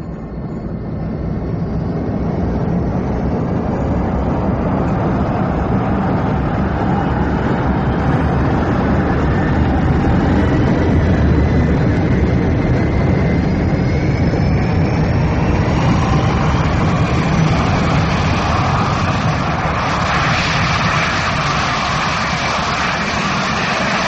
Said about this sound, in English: You are cleared for takeoff.